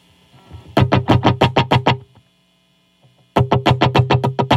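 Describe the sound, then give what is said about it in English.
Electric guitar through the slapback delay of a Tech21 Fly Rig 5 pedal plays two bursts of rapid, evenly spaced repeated chords, each echoed close behind, separated by a gap of about a second in which a faint hum remains. “And that's a nice slapback delay.”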